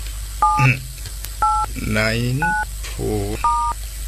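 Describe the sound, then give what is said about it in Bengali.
Touch-tone beeps of a telephone number being dialed, four distinct two-note DTMF tones spaced about a second apart, with a voice speaking in the gaps between them. “আমি এক্ষুনি বন্ধু নবকুমারকে ফোনটা করি।”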